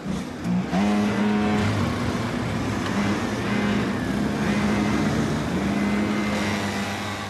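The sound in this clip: Racing engines of cars driven by young cadet drivers on a track, a loud continuous buzzing drone whose pitch wavers up and down as the engines rev and ease off throughout.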